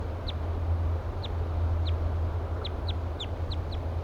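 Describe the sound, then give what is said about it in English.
Short, high chirping calls from a wild bird repeat irregularly, about a dozen brief notes that quicken toward the end, over a steady low hum. “Fluffing its feathers. Giving louder flight calls now.”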